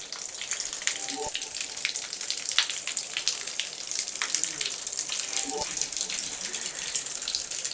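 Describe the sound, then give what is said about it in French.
Water trickles steadily in a cave among white, glittering mineral formations. The faint, continuous flow is broken by occasional sharper drips. “Des écoulements d'eau.”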